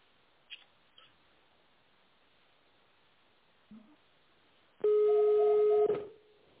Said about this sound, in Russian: Если вы знаете внутренний номер сотрудника, наберите его в тональном режиме.